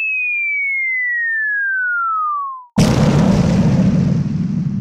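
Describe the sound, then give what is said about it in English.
A bomb-drop sound effect: a whistle glides steadily down in pitch for nearly three seconds, then a sudden loud explosion bursts in, leaving a heavy rumbling boom that carries on to the end. “can we get a bomb drop right there?”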